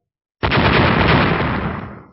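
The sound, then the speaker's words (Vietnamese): An explosion effect of more than ten magic talismans blowing up: after a moment of silence, a sudden loud blast erupts into a dense, sustained roar that slowly fades. “Hơn 10 cái phù lục tỏa ra hào quang chói mắt rồi phát nổ đến kinh thiên động địa.”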